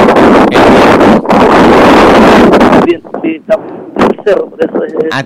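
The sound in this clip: Strong wind from the hills of the Choapa Valley in Chile's Coquimbo region roars loudly over a phone line for about three seconds, then drops away as a voice talks through choppy, broken sound.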